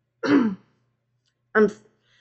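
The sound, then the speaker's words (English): A man clears his throat twice, each a short, rough, voiced rasp, separated by a pause of about a second. “He cleared his throat.”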